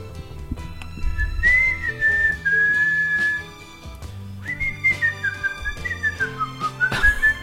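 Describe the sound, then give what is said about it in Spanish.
A person whistles a melody in long, clear sustained notes that waver in pitch, then a second phrase that dips and rises, over soft instrumental music with a steady beat and no talking. “Que iba a silbar y puse los labios como en posición de silbar y estaba tirando aire, pero estaba silbando. Pero te escuchaba silbar y pensaba que era yo.”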